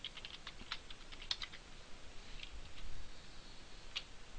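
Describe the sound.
Quiet, irregular clicks of a computer keyboard as someone types code, soft taps at an uneven rhythm with no talk.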